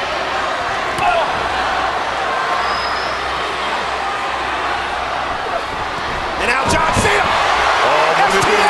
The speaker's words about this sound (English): Oh man, and now CM Punk in the martial arts background. He goes to work, Muay Thai kicks to Cena.